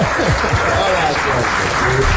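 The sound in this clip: Applause for a phone caller on a radio show: steady, dense clapping runs through the whole stretch, with a voice talking over it.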